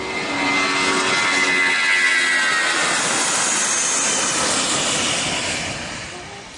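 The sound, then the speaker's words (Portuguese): A voice imitates the metal fan of an airplane engine spinning during takeoff: a loud, sustained, breathy whooshing hiss that holds steady for several seconds and eases off slightly at the end. “Tem uns aviões, quando você decola, parece que tem um catavento de metal em cima. Fica fazendo um.”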